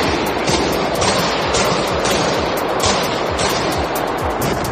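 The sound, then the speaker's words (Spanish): Automatic weapons gunfire from at least four armed men in a crowded concert hall at a shopping centre northwest of Moscow: harsh, loud, dense noise throughout, with repeated sharp bursts at a fairly regular rhythm. “Este era el momento en el que al menos 4 hombres armados han comenzado a disparar con armas automáticas en una sala de conciertos abarrotada del centro comercial Crocus City Hall, al noroeste de Moscú.”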